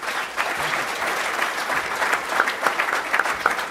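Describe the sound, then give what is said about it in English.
Audience applause for a prize winner at a club event: a dense, steady wash of many hands clapping at moderate loudness, holding even from start to finish. “Big round of applause.”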